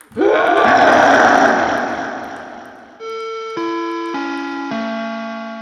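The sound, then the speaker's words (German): A dinosaur roars at a school: a loud, rough, growling roar for about three seconds that slowly fades, followed by a few steady electronic-sounding tones, each stepping lower in pitch. “Wir haben sogar ein Dino in der Schule.”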